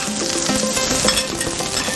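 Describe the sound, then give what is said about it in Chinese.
Food stir-fries on an iron griddle while a spatula scrapes hard across the metal. The sizzle and scraping are loud and continuous, with light metallic clinks mixed in. “煎的时候，刮铲一定用用力，就是贴着那个铁板，用用力的铲上来，它不会粘锅。”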